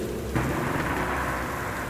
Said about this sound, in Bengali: এত জোর বৃষ্টি হচ্ছে তাতে একটা মাথা মোজার জায়গা তো লাগবেই